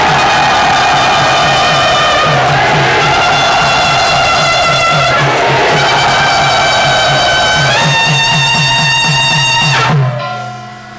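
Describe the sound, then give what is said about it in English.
A crowd cheers and whoops loudly to welcome a guest at Sri Radha Gopi, with voices raised together in a dense, sustained roar that holds steady for about ten seconds before cutting off abruptly. “Please let us very loudly welcome him to Sri Radha Gopi.”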